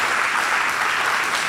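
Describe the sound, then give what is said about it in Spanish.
An audience applauds with dense, steady clapping. It stays loud and even for the whole short moment. “Sí, claro que sí, aplaudí.”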